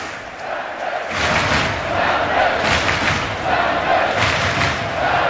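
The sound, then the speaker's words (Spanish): Football fans fill Lumen Field in Seattle before a Major League Soccer match, building a dense, continuous crowd roar that swells after the first second and stays loud and even, with shouts rising through it. “escuche usted la maravilla de ambiente que tenemos en el Lumen Field. A los aficionados.”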